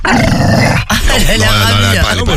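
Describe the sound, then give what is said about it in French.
An agitated female dog growls loudly in strained, wavering tones that rise and fall, with a short break near the start. “Oui, ça l'énerve, elle est très très énervée. Elle grogne.”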